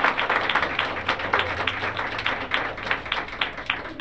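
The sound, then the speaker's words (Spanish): Applause from a church audience during a worship service: many hands clapping in a quick, steady patter, fairly loud and unbroken throughout. “Bueno, está como fingido ese aplauso, ¿no? Dele bien ese aplauso al Señor.”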